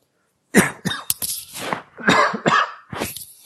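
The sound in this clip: A dry throat sets off a run of several harsh, raspy coughs in uneven bursts, loud and alone.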